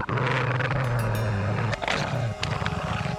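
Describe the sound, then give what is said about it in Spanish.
Menacing animal growls rumble low and continuously, a deep sustained snarl that holds steady for several seconds before briefly breaking, layered over dense, rough background noise. “se volvió extrañado, dispuesto a comprobar si aquellos amenazantes gruñidos venían de la alforja donde había depositado al cachorro.”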